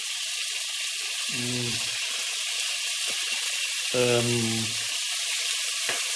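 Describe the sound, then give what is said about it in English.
Diced steak sears very hot in a pan with a loud, steady sizzling hiss that runs throughout, broken twice by a brief low murmuring voice. “So what I'm going to do is I fry it very hot, like you can hear, and fry it from all sides.”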